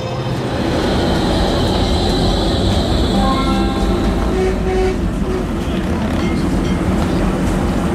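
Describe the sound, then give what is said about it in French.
A tram at a city tram stop in Nantes gives a steady, loud rolling rumble with a faint tonal whine running through it, continuous throughout. “Là, on vient d'arriver à Nantes et on attend le tramway pour aller au Zénith”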